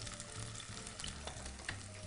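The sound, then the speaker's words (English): Zucchini frying in a pan as they turn golden brown, a faint continuous sizzle with a few soft stirring clicks. “And just continue to cook our zucchinis. Just want to get a little golden brown.”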